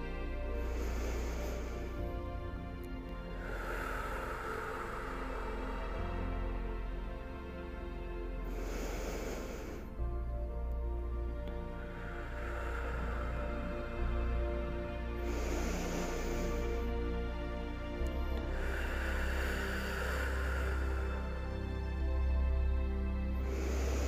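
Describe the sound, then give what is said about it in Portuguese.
Slow, deep breathing, drawn in through the nose and let out through the mouth, repeats in a few long, soft cycles over a steady low background hum. “você pode inspirar pelo nariz e soltar o ar lentamente pela boca. Vou fazer com você”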